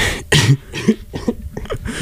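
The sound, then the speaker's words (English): A few rough coughs from a person who is a little ill, harsh, throaty bursts separated by short pauses, the first strongest and the later ones softer. “I'm also a little ill. I've got a cough.”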